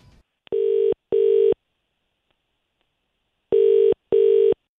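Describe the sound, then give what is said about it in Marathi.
Ringback tone of an outgoing phone call: four steady, buzzing tones in two pairs split by a long silent gap, loud and clear with no voices. “तिच्या मित्राला call करतो ज्याचं नाव आहे गौरव”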